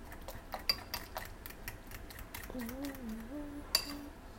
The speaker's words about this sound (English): I'll cut some fruit too. And make it all pretty.